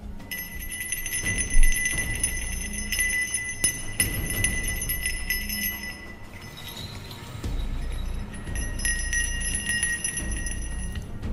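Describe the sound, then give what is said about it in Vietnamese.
Metal rings on a magic staff jingle like bells in bright, sustained ringing tones. After several seconds the ringing drops out for a short pause, then resumes over a low rumble. “Lão cầm cây pháp trượng rung lên, những cái vòng khuyên ở trên cây pháp trượng kêu leng ca leng keng nghe như là tiếng chuông.”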